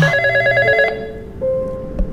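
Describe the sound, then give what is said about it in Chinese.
A home telephone rings unanswered. The bright, steady electronic ringing tone has strong harmonics and repeats at an even pitch, fairly loud and with no talk over it. “去接一下电话啦”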